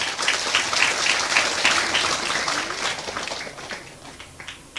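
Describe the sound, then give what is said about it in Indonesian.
An audience breaks into brisk applause, a dense crackle of many hands clapping. It starts fairly loud, then thins and loosens toward the end as fewer claps remain. “Aplaus dulu dong buat Ustadz Felix.”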